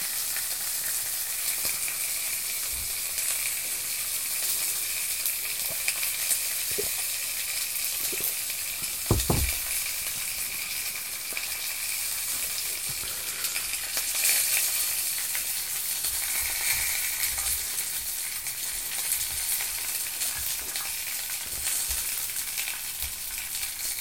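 Pork belly sizzles in a frying pan with a dense, steady crackling hiss that runs without a break. A few low knocks are scattered through it.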